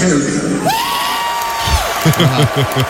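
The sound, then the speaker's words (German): An audience cheering at an Iron Maiden concert on the Canadian side of Lake Ontario: a broad crowd roar with whoops runs throughout, with a man's amplified voice speaking over it. “Wir sind hierher gekommen, indem wir den Lake Ontario überquert haben. Publikum hat es richtig gefeiert.”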